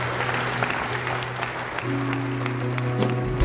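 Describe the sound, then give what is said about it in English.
Church audience clapping together after a sermon, a sustained patter of many hands that stays steady and fairly loud from start to finish. “Seal that lesson to your heart with a clap.”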